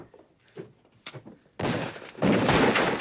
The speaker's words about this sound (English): The door's blown open beside Chavez. Billy kicks it shut and runs upstairs.